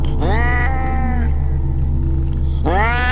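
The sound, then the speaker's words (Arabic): An ordinary domestic cat meows twice, each call sweeping sharply upward into a loud, drawn-out, plaintive wail. The second is cut off at the end, over a steady low hum. “صوت القط كان هو صوت القط العادي اللي نعرفه، فما كانش صوت فهد أو أي صوت حيوان من الحيوانات الشرسة، كان صوت قط عادي جدا”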